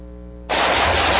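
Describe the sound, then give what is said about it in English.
A dense burst of gunfire shooting erupts abruptly after a low humming lead-in, a loud, continuous rattling crackle of rapid shots that carries on to the end without a break. “Nice shooting.”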